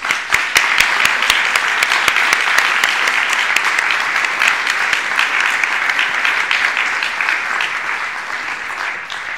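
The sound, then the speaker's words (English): Audience applause at the Bristol Refugee Festival welcomes the writers, a loud, dense and steady roar of many hands with crisp individual claps standing out, easing only slightly toward the end. “So would you please put your hands together and welcome our fabulous writers.”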